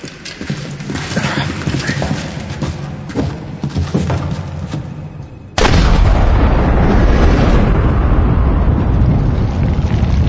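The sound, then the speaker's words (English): A sudden deep boom as an explosion jolts a ship free from ice at minus 43 degrees. Scattered thuds and clatter come before it, and a loud, sustained low rumble follows. “What was that? Okay, the explosion must have dislodged the ship from the ice.”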